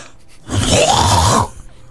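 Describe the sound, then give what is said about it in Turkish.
A single throat clearing, made on request, is heard as one raspy, drawn-out hawk lasting about a second. It is loud and stands alone, with quiet before and after. “Öksür. Yeter. Hınkır.”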